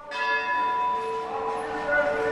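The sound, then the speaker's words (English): A large bronze bell tolls during a police protest march in Athens, with a loud, sustained metallic ring whose layered overtones hang and fade slowly, swelling again near the end. “A large bronze bell tolled as thousands of policemen in full uniform marched solemnly through”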